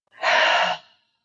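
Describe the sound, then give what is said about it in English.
A single deep breath, drawn in and let out as a soft, airy sigh, lasting about a second on its own with no talking. “let's just take a moment, take a nice deep breath in, exhale it out.”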